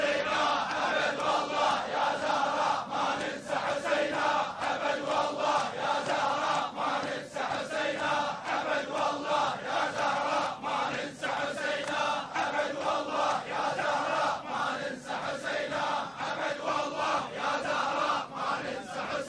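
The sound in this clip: A dense crowd roars and chants without pause at a religious gathering where Husayn is invoked, many voices merging into one loud, unbroken wall of shouting that holds steady throughout.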